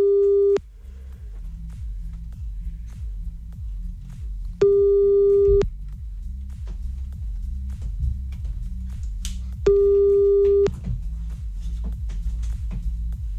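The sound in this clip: Telephone tones while redialing a caller: three steady, mid-pitched beeps, each about a second long, spaced roughly four to five seconds apart over a low, rhythmic throbbing hum.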